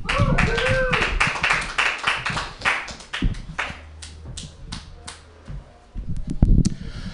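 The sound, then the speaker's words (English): Sparse, uneven clapping from a small open-mic comedy audience, with many separate claps and brief gaps, thinning out midway before picking up again near the end. “Make some noise if you take comedy so seriously it's not fun anymore.”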